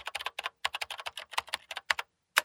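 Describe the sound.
Someone types on a computer keyboard, entering a name and number: many quick, light key clicks in an uneven rhythm, fairly faint, with a short pause before a final few taps.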